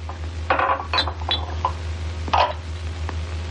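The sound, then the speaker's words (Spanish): Coffee cups are stacked on a cluttered table, making a few sharp clinks and light knocks spread unevenly across the moment. A steady low hum sits underneath the clinks. “Empezaremos por aquí. Apila las tazas.”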